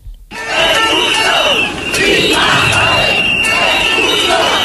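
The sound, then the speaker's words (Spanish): Loud shouting and chanting from a crowd of hundreds of residents at a Sunday demonstration in Ceuta, sustained and dense throughout with a brief dip partway through. “Es el de cientos de vecinos que se han manifestado en Ceuta este domingo para defender la españolidad de la ciudad y pedir la protección del territorio.”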